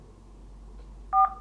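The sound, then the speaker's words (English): A single dual-tone telephone keypad beep, as when entering a PIN, sounds once, short and clear over a faint low hum. “Please enter your PIN followed by the pound or hash sign.”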